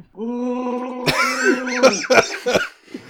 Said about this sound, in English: It just sounds like he's gargling.